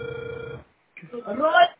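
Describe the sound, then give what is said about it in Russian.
A telephone ringback tone sounds as a call is dialed: one steady electronic tone lasting about half a second, then a short silence, then a voice speaking. “продолжаю дозвон. Не отключайтесь.”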